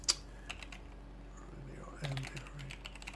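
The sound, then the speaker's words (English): Someone types on a computer keyboard, producing many light, irregular key clicks. It opens with one sharper tap, and a brief murmur of voice appears midway. “Let me just type it in.”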